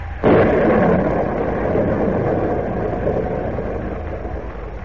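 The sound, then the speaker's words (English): A storm sound effect in a radio drama: a sudden crash opens a sustained, loud, low roar of wind and weather that slowly eases off. “The storm grows worse.”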